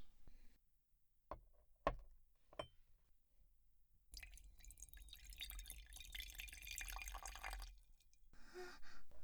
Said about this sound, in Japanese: 今急須にお湯こそ注ぎますで。